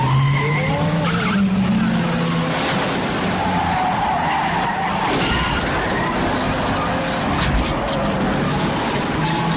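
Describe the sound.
A car accelerates hard with its tyres skidding and squealing. A loud, continuous engine roar runs under whining squeal tones the whole way through, with no break.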